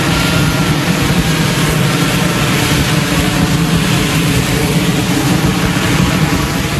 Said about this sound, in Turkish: Bir F-35 savaş uçağı Beyaz Saray'a yakın konumdaki Jefferson Anıtı çevresinde alçak irtifada uçarken görüntülendi.